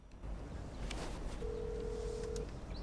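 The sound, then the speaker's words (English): A phone number being dialed from inside a car: a single steady electronic tone holds for about a second, faint over a low background hum. “She turns the CD off, then dials a number on her phone.”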